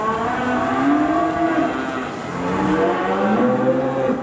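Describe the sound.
Cattle on a farm in Virginia, a herd with calves in a new open barn, low and loud, with several long, overlapping moos that rise and fall without a break and no talk.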